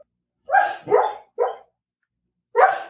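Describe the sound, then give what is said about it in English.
A sleeping dog dreams and gives four short, muffled yips and woofs. Three come in quick succession and one more follows after a silent gap of about a second. “Is there anything cuter than a dog dreaming?”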